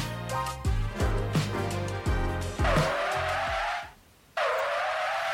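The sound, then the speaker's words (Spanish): Car braking with tires screeching, a sound effect that plays twice: two long, loud, high-pitched squeals separated by a brief silent gap. “Salió dos veces la frenada, perdón.”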